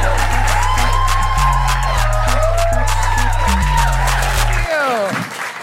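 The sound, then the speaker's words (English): An audience cheers, whoops and applauds to welcome a performer at a live comedy show. The loud, continuous cheering rides over pounding walk-on music, which cuts out near the end. “On three, we're going to whoop, cheer, and go crazy for Kiran Saggu.”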